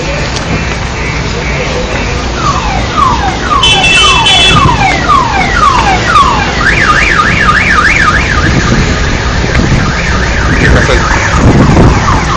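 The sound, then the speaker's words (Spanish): Insistent car alarm blaring from a vehicle on an avenue in San Borja, cycling through repeated downward chirps and then a fast warbling tone, loud and continuous over steady street noise. “ese ruido que escuchan de la alarma insistente desde hace ya bastante rato.”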